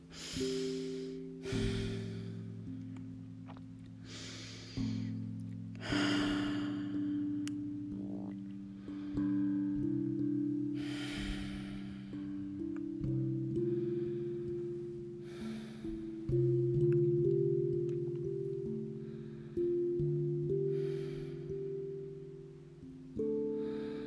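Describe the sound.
Slow breathing during a guided breathing exercise: many soft, airy inhales and exhales at an unhurried, regular pace over a sustained, gently shifting tonal backing.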